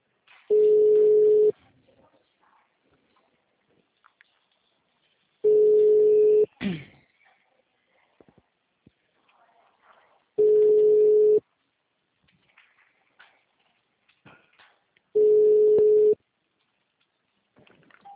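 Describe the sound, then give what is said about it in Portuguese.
Telephone ringback tone heard while a call rings through: four steady mid-pitched tone bursts of about a second each, separated by long silent gaps, with faint background noise between them. “aqui tá mudo. Ah, tá chamando.”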